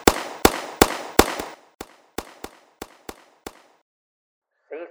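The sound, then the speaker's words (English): Gunshots on a firing line where shooters fire five-round magazines: a quick series of about ten sharp, loud cracks, the early ones stronger, each with a short ringing tail, then silence. “Firing line is no longer clear. Lock and load. 1 magazine, 5 rounds each. Fires, watch your lanes.”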